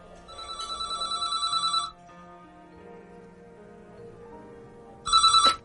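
A telephone rings at a country club in two bursts of rapid, trilling electronic ringing. The first burst is long and pulsing, then a quiet pause with faint low hum follows before a shorter second burst.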